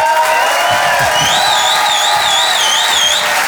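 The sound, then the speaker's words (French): An audience cheers and applauds in an ovation at a show, a dense, steady roar of clapping and voices with a high, wavering whistle rising above it in the second half. “Je vous demande de faire un maximum de bruit. Une ovation s'il vous plaît pour Selig.”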